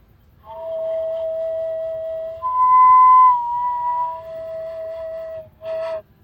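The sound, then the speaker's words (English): A Māori pūtorino flute played in its female voice gives a pure, breathy whistling tone that steps up in pitch midway, drops back to the first note, then ends with a short breathy burst. “so this I'll play the pūtorino. So you got three sounds in the pūtorino. The first one's the taha wahine, the sound of the female.”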